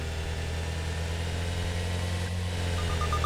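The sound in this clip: Continuous car engine drone from an audio racing video game made for playing without sight, a low steady hum with a few short high beeps near the end.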